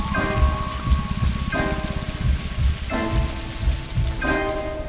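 Rain falls steadily around a group of kids standing outside, a dense, even hiss of drops on surfaces that continues without a break for the whole clip, with no voices.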